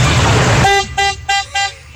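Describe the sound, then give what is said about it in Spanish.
An old car horn honks three short, loud, brassy toots in quick succession after a burst of rushing noise. “Puro pito tema. De carro viejo. Puro respétele, pito de carro viejo. Respétele el vehículo al señor.”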